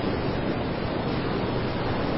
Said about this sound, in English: As I sit here just watching the waves of the ocean, I imagine that the world is washed away from my mind.